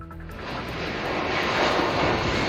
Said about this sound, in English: That is the sound of an evacuation flight lifting off from the Canary Islands with Canadians on board.